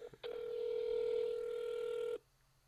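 A toll-free 1-800 telephone number being dialed: a few quick keypad beeps, then one long, steady calling tone that cuts off abruptly into quiet.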